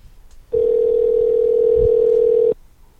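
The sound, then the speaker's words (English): A telephone dial tone plays while a call is placed: one steady, continuous tone lasting about two seconds, starting and stopping abruptly over faint background noise. “Oh, we're calling this special guest. If it goes to his voicemail, I'll kick his butt”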